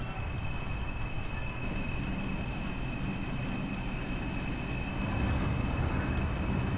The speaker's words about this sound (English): And this train doesn't seem like it's going too fast.